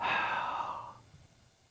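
A person blows out a single long breath to imitate a divine spirit being breathed out. The exhale is a soft, airy whoosh that is strongest at the start and fades away after about a second, with no talk.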